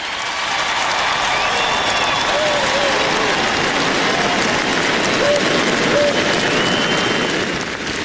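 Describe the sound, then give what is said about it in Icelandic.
A large crowd cheers and applauds for royals appearing on a royal palace balcony, a loud, dense and unbroken wash of clapping and cheering that holds steady throughout. “var fagnað ákaft, en mestu fagnaðalætin heyrðust þegar Sonja drottning kom út á svalir”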